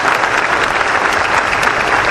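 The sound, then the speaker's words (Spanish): Applause from a crowd greeting a cycling champion at a municipal sports-day ceremony, a loud, dense and steady clatter of many hands that fills the whole clip without any voices over it. “Un aplauso para Jason.”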